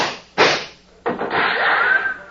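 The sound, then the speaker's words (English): Gunfire shoots a gun out of a man's hand, with two sharp, loud cracks about half a second apart. The second crack carries into a long, sustained ringing noise. “Who done that? Who shot that gun out of my hand? I did, mister.”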